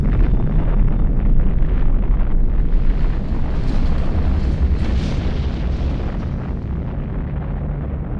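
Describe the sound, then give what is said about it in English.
A massive test explosion in jungle, set off to simulate a small tactical nuclear bomb. A loud, deep, rumbling roar is sustained throughout and slowly eases off. “would adequately simulate a small tactical nuclear bomb. Minus 10, 9, 8, 7, 6, 5, 4, 3, 2, 1, 0.”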